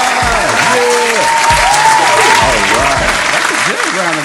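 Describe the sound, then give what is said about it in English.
Applause and cheering from a live audience greeting a special guest, a chef, on a comedy show. The clapping is loud and steady throughout, with raised voices calling out over it. “I appreciate the applause.”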